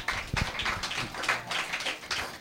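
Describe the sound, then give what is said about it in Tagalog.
Church audience applauding the Lord after a call to praise: a dense, steady burst of many hands clapping that fills the short moment evenly. “Purihin, palakpakan natin ng Panginoon.”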